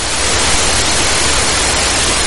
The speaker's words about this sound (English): the sound stopped and it was replaced by another type of sound, a hissing sound, which is not a sound relating to life. It's the sound of death, if you like.